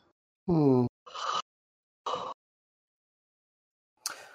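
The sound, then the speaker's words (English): A person yawning: a short voiced, groaning stretch, then a few breathy exhalations with quiet pauses between them. “Did you yawn? No, that's me yawning.”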